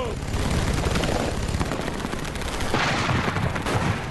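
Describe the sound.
Gunfire rings out in a battle between soldiers in a valley, a dense, loud stream of shots and blasts that never lets up, with voices mixed into the din.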